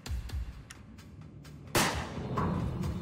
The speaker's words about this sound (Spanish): Le tomó un minuto darse cuenta de que le habían disparado. ¡Le disparaste!